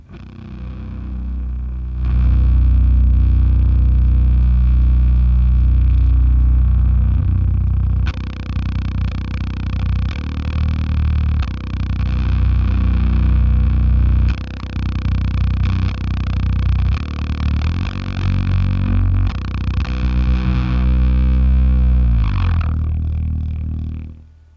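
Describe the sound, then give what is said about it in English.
An electric guitar played through a Z.Vex Woolly Mammoth fuzz pedal gives a thick, heavy, bass-rich fuzz tone. The loud, saturated, buzzing sustain keeps going with shifting riffs for over twenty seconds, with no speech. “I'd love to hear these two pedals. Definitely. So this is the Woolly Mammoth.”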